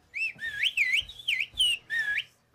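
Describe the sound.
A shepherd whistles a greeting in a whistled language, sending about five loud, piercing high-pitched phrases whose tones glide up and down like speech, separated by brief gaps.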